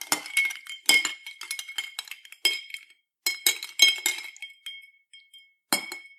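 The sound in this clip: A spoon stirring a cocktail in a glass gives many bright, ringing clinks in irregular clustered runs, broken by brief pauses, with no talk over it.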